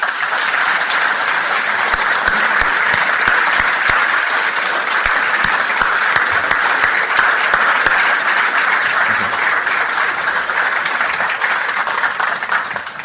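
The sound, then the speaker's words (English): Audience applause at a literary event welcoming author Ian Rankin, a long, dense and loud patter of many hands clapping that holds steady throughout without any speech. “Please put your hands together and join me in welcoming Mr.”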